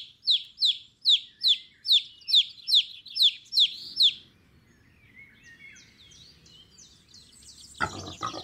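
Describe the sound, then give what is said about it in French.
High, shrill peeping of a chick: a steady run of many rapid, downward-sliding peeps, loud and alone, then fainter scattered chirps over a low rustling background. “Mais quel animal fait ce bruit? C'est le poussin qui piaille.”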